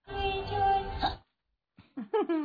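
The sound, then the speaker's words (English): A boy hiccuping: a longer voiced sound is followed by a short pause, then a few quick, sharp hiccups in a row. “The hiccuping boy. This is a boy who hiccups.”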